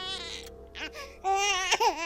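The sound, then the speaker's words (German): A human baby cries in wavering, high wails broken by short gasps, growing louder toward the end. “Tut etwas weh? Irgendetwas ist da, was herausgeschrien werden muss. Spontan und hemmungslos. Menschenbabys.”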